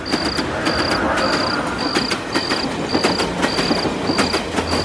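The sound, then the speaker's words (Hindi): A train passes along a distant track beyond trees, its wheels giving a steady, rhythmic clickety-clack over a low rumble. Crickets chirp throughout in a regular pulsing pattern. “तभी दूर से train की आवाज़ सुनाई दी”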